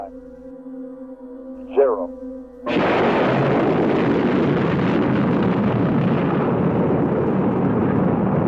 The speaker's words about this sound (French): À 9h32, heure locale, Apollo 11 décolle. Une énorme boule de feu apparaît sous la fusée et se transforme en un torrent de flammes. La terre tremble.